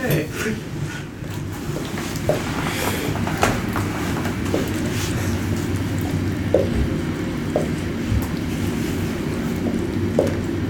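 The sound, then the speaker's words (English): A train rolls along nearby tracks, making a steady low rumble that lasts about eleven seconds. Faint clicks and knocks rise above the rumble every so often. “No, there's a train. Train tracks right there.”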